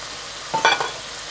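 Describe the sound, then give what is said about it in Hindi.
Corn and bell peppers are stirred into a hot pan with chicken, giving a brief burst of sizzling and scraping for under half a second before fading back to a low hiss. “And bell pepper चले गए, mix कर लें और इसे लो to medium पर रख कर तमाम पानी को खुश्क हो जाने दें”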